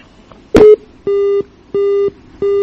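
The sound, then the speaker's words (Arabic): Telephone busy tone after a caller's line from Libya drops mid-call: a short burst of noise, then three loud, evenly spaced beeps at one steady mid pitch, each about a third of a second long. “يبدو أن الاتصال انقطع.”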